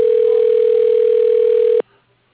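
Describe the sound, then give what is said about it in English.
A telephone tone sounds on an automated phone line as a call is put through to an extension, one steady, unbroken tone holding for nearly two seconds and then stopping abruptly, followed by near silence. “Dialing.”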